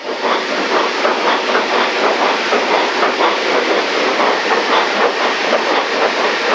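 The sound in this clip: Coal-fired steam locomotive starting to move: a loud, steady hiss and rumble runs throughout, with many rapid, rhythmic chuffing pulses beating through it.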